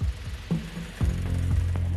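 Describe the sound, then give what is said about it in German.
A sickle bar mower cutting a meadow gives a low droning engine hum punctuated by regular clattering strokes, roughly every half second, growing steadier and fuller toward the end. “Wegen der vielen Hindernisse werden Balkenmäher eingesetzt. Die Wissenschaftler wollen herausfinden, ob sie mit dem Balkenmäher Pflanzensamen gewinnen können.”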